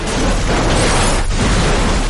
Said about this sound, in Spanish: El otro coche choca de frente contra un obstáculo y explota.